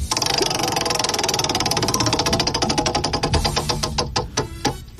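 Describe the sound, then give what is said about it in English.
A spinning topic wheel makes rapid ratcheting clicks that gradually slow and spread into distinct, evenly spaced ticks as it winds down to a stop. “I'm going to spin the wheel of topics right now.”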